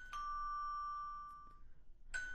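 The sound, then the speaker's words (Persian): A doorbell chiming quietly: a clear ringing tone sustains and fades for more than a second, then a second chime sounds after a short gap. “مادر جان زنگ در است، من اینال پس میاییم.”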